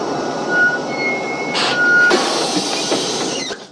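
A bus slowing to a stop: a steady rumble of engine and road noise runs throughout. Three high, thin beeps sound over it, with a short burst of hiss midway and a broader rush of noise after it.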